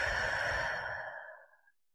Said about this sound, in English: I wonder if we can just kind of take a deep breath in ourselves. Deep breath out.